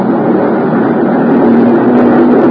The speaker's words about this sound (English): A dinghy with an outboard motor came over from the boat.